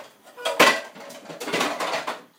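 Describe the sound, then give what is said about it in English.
A spoon scrapes and clatters curry paste into a cooking pot for a duck curry: a few metallic knocks and scrapes, loudest near the start, then a longer stretch of softer rattling. “It's always good when you're making a curry to put the curry paste in the pot.”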